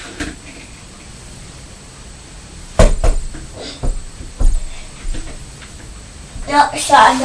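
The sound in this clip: A door is shut with one sharp, solid thud, followed by a few softer knocks and clatters as people talk.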